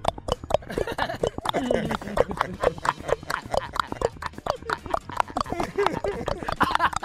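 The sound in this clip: A voice imitates the footsteps of a man in shoes running away from the police: a rapid, steady patter of clopping clicks, many in quick succession, keeping up an even running rhythm throughout.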